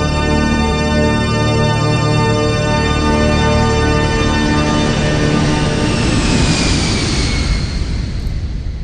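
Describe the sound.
A train pulls into the next station with a loud, steady rumbling drone and sustained tonal hum; toward the end the hum slides down and fades as a hissing wash takes over.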